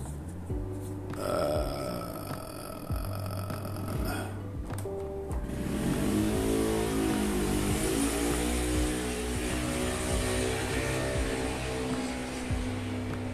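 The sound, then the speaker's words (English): Motorcycles race on a nearby raceway: a droning engine whine rises in pitch and then holds as a loud, sustained buzzing roar over a rumbling background. “I live on a motorcycle raceway. I'm sorry.”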